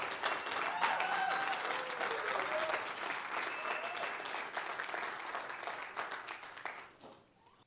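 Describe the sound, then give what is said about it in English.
A church audience applauds to welcome a speaker to the stage: dense, steady clapping from many hands, loud at first and tapering off toward the end. “Would you put your hands together and welcome Joel Eklund?”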